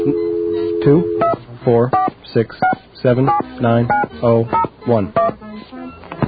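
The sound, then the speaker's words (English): Touch-tone beeps as a telephone number is dialed: a steady tone at first, then many short beeps in a quick, uneven rhythm, with a voice heard alongside them. “What's our number again? I'm too choked up to even think of what our number is. Let me dial it.”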